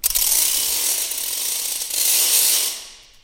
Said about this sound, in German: Da ist noch ein ganz lautes Teil. Genau, das ist eine Achtung, ich mache ein bisschen Distanz. Das ist eine Ratsche.